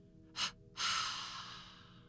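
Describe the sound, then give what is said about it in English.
A person makes a double exhalation through the mouth after tensing the face and body: a short, soft puff, then a longer breathy release that fades out slowly, both faint. “Hold it for just a moment, and then let it all out with a double exhalation from the mouth, like this.”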